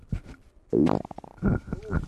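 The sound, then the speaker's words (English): Flatulence: a few low, buzzy, rumbling fart blasts with a rough vibrating tone, each fairly loud and short, coming in quick succession. “Let's fart again.”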